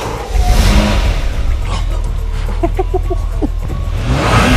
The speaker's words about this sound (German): Und düsen mit einem geklauten Ferrari in die Nacht.